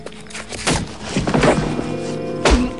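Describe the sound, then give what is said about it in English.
Dull, blunt thumps of a shotgun striking a man on the back of the neck, a few muffled knocks spread out, the last one the heaviest. “Scorpio pads up behind him, lifts his shotgun, and strikes Harry on the back of the neck.”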